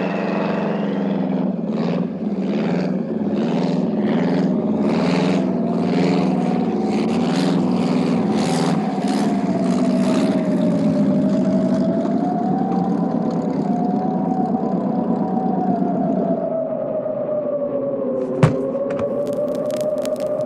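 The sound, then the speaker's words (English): The droning engine of a small plane landing in a crosswind with blowing snow. A loud, continuous hum wavers slightly in pitch for about twenty seconds, and a single sharp knock comes near the end. “That crosswind is gonna make for a tricky touchdown.”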